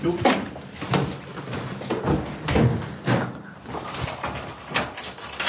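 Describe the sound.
A door being closed and locked, heard as a few dull knocks and clunks with small clicking rattles spread over a steady low background.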